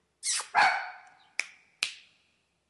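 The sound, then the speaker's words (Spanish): A female dog barks several times in sharp, separate bursts. The first barks are the loudest, and quieter single yaps follow after short pauses. “Esta es la perra más famosa de internet.”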